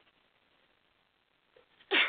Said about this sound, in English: Excuse me, I think I have to sneeze.